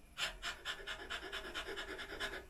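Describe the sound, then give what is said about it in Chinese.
Many quick, sharp inhalations in a rhythmic breathing exercise, each snatched breath followed by the belly springing back, forming a fast, even, faint series of airy puffs. “当我快速吸，只要我一放松，我的肚皮就会自己弹回来”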